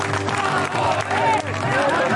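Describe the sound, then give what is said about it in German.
Crowd cheering and clapping as the Hertha BSC football team arrives at a family summer festival in the Olympiapark, a continuous roar with raised voices mixed through it. “Es ist die Ankunft der Mannschaft, die den größten Jubel dieses Familiensommerfests im Olympiapark auslöst.”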